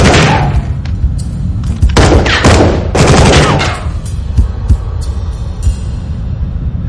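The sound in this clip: Gunfire erupts in a combat firefight, with many sharp shots and heavy thuds cracking out in rapid, irregular bursts. The barrage is loudest early on, then continues as scattered, slightly quieter reports.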